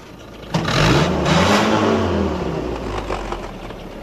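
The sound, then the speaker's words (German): A tow truck's engine approaches: a broad motor roar that starts abruptly, holds loud and steady, then eases off slightly. “während sie noch so dastanden, kam wieder ein Motorengeräusch näher. Es war der Abschleppdienst.”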